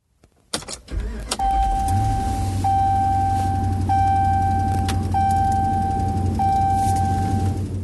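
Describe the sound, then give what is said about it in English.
A car enters Yellowstone National Park through the west entrance on a cool September morning. A thump and the engine starting give way to a steady low hum under a sustained high electronic tone marked by regular clicks. “It's 6:45 a.m. on a cool September morning, and I'm driving into Yellowstone from the west entrance.”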